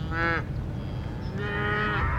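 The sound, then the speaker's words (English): A cow moos, one of a small herd with calves, including a little cow nursing two babies. A short moo comes first, then a longer, drawn-out call after a pause. “We have one little cow that has two babies that nurse her.”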